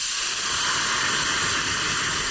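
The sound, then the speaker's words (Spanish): Hot broth poured onto rice in a pan or pot gives a continuous, even, bright sizzling hiss that stays steady and fairly loud throughout, with no voices. “Cuando echéis el caldo a la sartén o a la olla, tiene que sonar así.”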